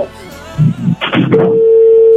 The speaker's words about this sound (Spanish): ¿Me está sonando? Yo creo que no. Sonando. Es el teléfono.